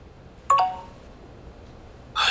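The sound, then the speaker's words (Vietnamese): Text message notifications chime on a phone: a short, bright tone, then after a pause a second brief burst near the end, both clear against a quiet background. “ai mà nhắn tin liên tục vậy?”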